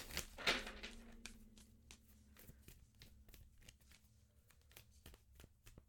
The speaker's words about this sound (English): All right, should we pull a card for our relationships with the deck?